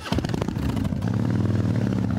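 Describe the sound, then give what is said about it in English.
A Harley-Davidson motorcycle engine rumbles during a ride, a deep, steady throbbing drone with a strong low-pitched engine tone and a loud, even level throughout. “to ride his Harley.”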